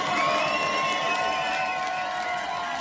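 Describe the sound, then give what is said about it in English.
A concert crowd cheers and whoops in a dense, continuous roar of shouts that stays loud and steady from start to finish. “Make some noise for yourself, ladies and gentlemen.”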